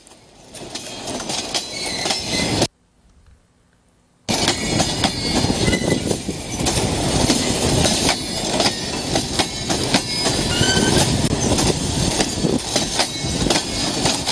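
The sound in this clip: A train on a long journey rolls over rails with a loud, steady rumble and a rhythmic clickety-clack of the wheels. A brief near-silent gap interrupts it before the noise resumes.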